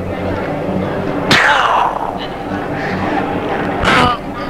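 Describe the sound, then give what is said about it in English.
Two sharp, shot-like bangs in a playful acted crime scene, well apart, each bursting out of steady background noise and trailing off in a falling whine. “Oh, that last shot hurt even more.”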